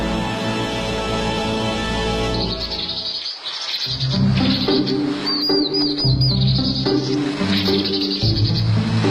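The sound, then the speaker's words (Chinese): A vinous-throated parrotbill calls in Daxing, Beijing, giving repeated high, thin chirps and twittering notes over steady insect-like buzzing and a sustained low tonal background. “我的名字叫棕头鸦雀”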